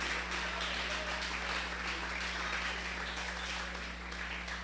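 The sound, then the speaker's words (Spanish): Applause from a church audience during a worship service: dense, steady clapping that holds at an even level throughout, over a low constant hum. “Denle un aplauso grande a Jesucristo.”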